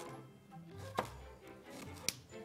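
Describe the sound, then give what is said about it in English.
A knife slicing a shallot on a board: two faint, sharp cutting knocks spaced about a second apart, with a soft low background between them. “And while you do that, I'm going to slice our shallot.”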